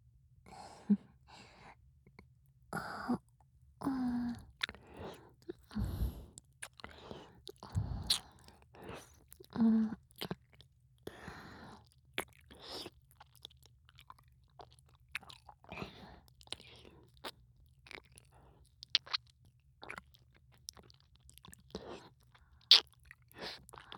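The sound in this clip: Wet mouth sounds of an ear being licked: many soft, irregular smacks and slurps with faint breaths between them, and no speech.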